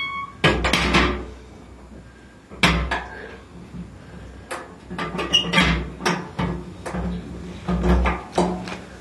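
A wood stove door is handled and shut with clunks and knocks: many sharp wooden thuds spread unevenly over several seconds, with quieter rattles between them.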